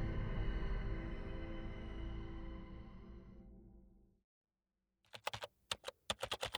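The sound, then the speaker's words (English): Keys clatter on a computer keyboard in a quick run of sharp clicks, after a steady humming drone fades out and a brief silence. “Five words typed into the message board, sitting unread.”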